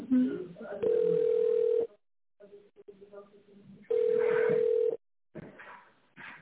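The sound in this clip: Telephone ringback tone sounds while an office call is transferred to the accounting department. Two long, steady, mid-pitched tones, each about a second, are separated by a few seconds of quieter background talk.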